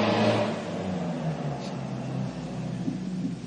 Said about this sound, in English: Like hearing a crazy driver out there skidding around.